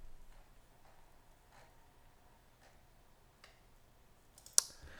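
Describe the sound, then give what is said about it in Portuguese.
Soft, sparse clicks of typing on a computer keyboard tap out at a slow, irregular pace, ending with one sharper click; no one speaks. “Ah, estou aqui a escrever a ver se aparece.”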